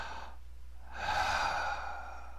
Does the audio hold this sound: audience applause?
no